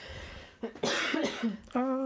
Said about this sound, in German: Ich werde jetzt husten, das ist kein Corona.